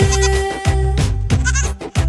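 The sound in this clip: A little lamb bleats repeatedly, giving loud, wavering, nasal cries at a fairly steady pace, one after another.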